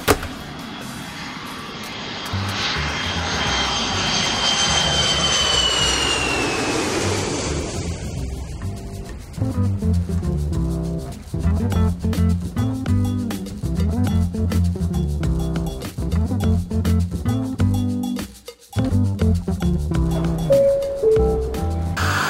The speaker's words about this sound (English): Ready for takeoff, guys?